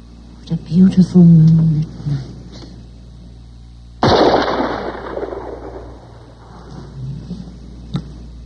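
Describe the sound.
A single loud gunshot fired at night outside a house by a garden arbor, with an abrupt crack and a long, rumbling decay; a short voice sound comes before it, and faint scattered noises follow.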